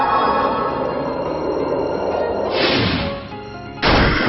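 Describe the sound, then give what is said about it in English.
An ice attack move striking an enemy in a video game: a loud, steady, noisy rush swells in the middle, then a sharp, heavy burst hits near the end. “Snowmano used Frigid Touch.”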